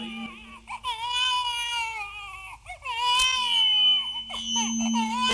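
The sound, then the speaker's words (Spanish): A baby cries loudly and continuously for about five seconds: a high, strained wail that breaks briefly between bursts as the infant catches its breath. “a ver, ¿qué dice el bebé? ¿Qué dice el niño ahí?”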